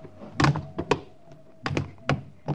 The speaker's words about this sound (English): All right, let's jump. Try to land as quietly as you can.